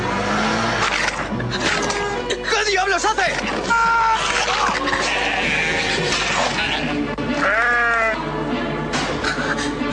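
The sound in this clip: Sheep bleating in distress: a few wavering, nasal cries rise over people talking and other busy background noise.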